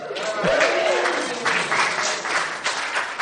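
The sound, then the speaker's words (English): A live audience at an event for the Breaking Bad finale cheers and applauds. It is a dense, steady wash of clapping and shouting that swells in a few uneven surges. “We have a whole lot of people in the audience tonight. Give a shout, everybody.”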